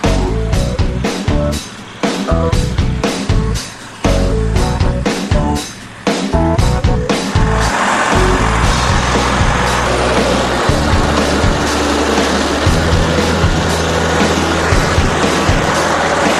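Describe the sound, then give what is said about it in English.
A hydraulic stump grinder with a 25-horsepower motor chewing a tree stump into mulch, opening with a rapid series of sharp knocking bursts and short gaps before settling into a steady, loud, dense grinding roar. “this is a stump grinder. This particular model is operated hydraulically by these three levers here. Uh-huh. It has a 25-horse motor on it.”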